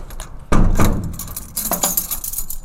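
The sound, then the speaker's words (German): Metallic clinks and jangling of keys turning in a lock at a prison in northern Germany, a few sharp rattling bursts spaced apart, moderately loud and alone. “Und manchmal Schlüssel, die sich im Schloss drehen.”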